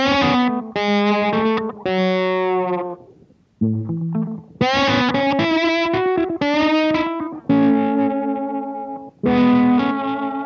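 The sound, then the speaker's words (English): An instrument passed through an Eventide H9 filter effect with plate reverb gives a voice-like, filtered tone. It plays a series of sustained, harmonic-rich notes in phrases, separated by brief gaps. “So same Eventide H9 filter sound with the my broadcast and the plate, which we used a real plate when we recorded it at the studio, but this does the trick perfectly.”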